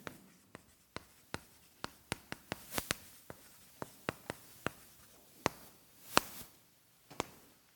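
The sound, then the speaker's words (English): A pen scratches and taps across a chart during a teaching talk at an evening church service. Many quiet, sharp, irregular strokes and clicks follow one another with no talking. “I know better than to try and talk and write at the same time.”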